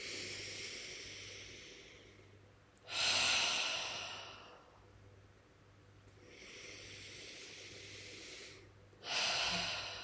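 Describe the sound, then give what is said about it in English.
Deep breathing from a guided breathing exercise: slow breaths drawn in through the nose and pushed out through the mouth. Two loud, hissing exhales each build quickly after a gradually rising inhale, then fade away. “you just take a really deep breath in through your nose, and then on your exhale, just push it out through your mouth.”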